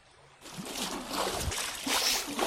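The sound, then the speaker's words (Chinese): Water splashes in a royal bathhouse pool. The sound starts abruptly after a short quiet moment, then carries on as continuous sloshing and spattering, with a few louder surges. No one talks. “好什么？至少别在浴池里游泳呢。怎么还泼起水来了？”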